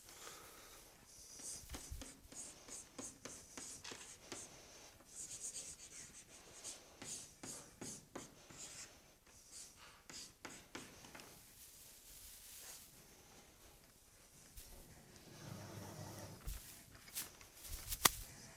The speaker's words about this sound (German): hier schreibe ich einfach nochmal das Gleiche hin, damit ich es dann da oben wegwischen kann.